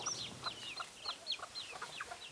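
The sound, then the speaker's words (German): Bantam hens cluck on a farm among mixed poultry: many short, high, chirpy calls repeat at a fairly steady pace with no talk. “Unter ihrem bunt gemixten Federvieh gibt es auch ein paar Buschhühner. Und auf die kommt es an.”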